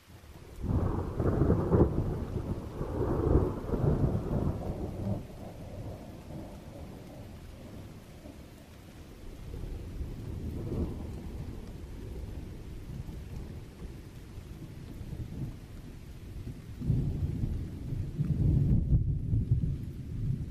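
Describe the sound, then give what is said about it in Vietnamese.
Steady rain falls in a continuous hiss while low thunder rumbles and rolls through. The downpour swells and eases at several points over the stretch. “Cơn mưa rả rích từ sáng ngày hôm qua cho tới tận lúc tối mịt.”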